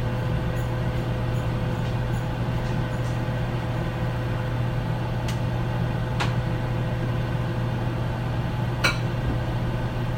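A quiet oven runs with a steady, even low hum and a faint tonal whine, broken only by a few soft, brief ticks.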